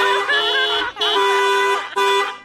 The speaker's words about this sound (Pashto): په دې خوشحالۍ کې به یو بل هارن درته ووم.